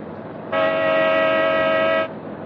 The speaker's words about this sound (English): Give him the horn again.